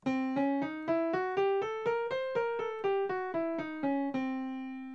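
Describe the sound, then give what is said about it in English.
A diminished scale on C, starting with a half step, is played in evenly spaced single notes, climbing to the top and then stepping back down to the starting pitch, each note struck clearly and decaying before the next. “A common substitute scale for the C7 has been to use a diminished scale which begins with a half step.”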